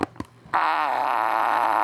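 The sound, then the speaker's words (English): A 7-in-1 toy fart machine bought from Amazon gives a sustained, buzzy electronic fart with a wobbling tone. A couple of faint clicks come just before it. “And the good news is that there's 7 different farts in here. So that's the 7-in-1.”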